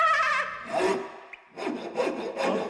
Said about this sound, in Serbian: Polako bre, testero. 2 put meri, jednom seci.